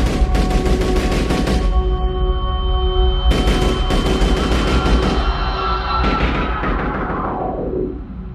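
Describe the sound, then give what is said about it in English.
A burst of gunfire as prayer ends in a courtyard crowded with pilgrims: loud, rapid shots crackle almost without pause, break off briefly near the middle, then resume before trailing away at the end. “Just as the prayer ended, shots rang out.”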